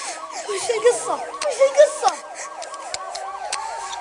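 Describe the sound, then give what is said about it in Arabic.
A police siren wails in fast, repeating rising-and-falling sweeps, loud and steady throughout, with a few brief extra noises mixed in. “صوت شرطة.”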